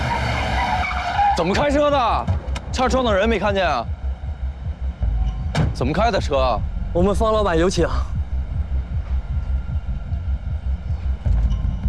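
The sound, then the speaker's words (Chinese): Car tires screech as a vehicle skids on the road, a few shrill, wavering bursts that come in two close pairs over a steady low rumble. “怎么开车的？车撞的人没看见啊？怎么开的车？”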